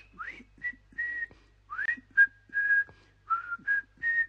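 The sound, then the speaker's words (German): A person whistles a short tune: a string of bright, clear notes, some held steady and a few swooping upward, played at a moderate level with no talking. “dann kann ich sogar schon pfeifen. Nein, dann kann ich's essen und dann kann ich pfeifen. Soll ich mal pfeifen? Na, so geht es.”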